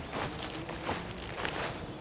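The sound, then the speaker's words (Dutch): Soft footsteps of someone walking onto a meadow of grass and young plants, a faint rustling crunch with a few gentle steps spaced across a quiet background. “We lopen nu een stuk weiland op dat tot vorig jaar nog gepacht werd dus.”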